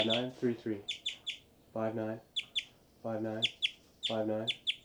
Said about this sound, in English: birds are flying around giving a lot of flight calls, and these are the birds